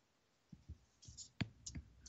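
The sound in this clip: Faint, irregular keystrokes on a computer keyboard: several soft, unevenly spaced clicks over about two seconds.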